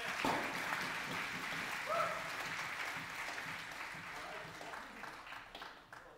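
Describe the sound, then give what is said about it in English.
An audience claps steadily to welcome a speaker. The continuous dense applause runs from the start, mixed with some voices, and slowly fades toward the end. “Let's give him a warm welcome.”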